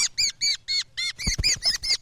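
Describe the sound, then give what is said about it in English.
An American robin, caught in a mist net set for songbirds in a park before dawn, gives many sharp, high, squawking chirps in a rapid, fairly regular series, loud and alone. “The first bird is a native of Illinois, a robin.”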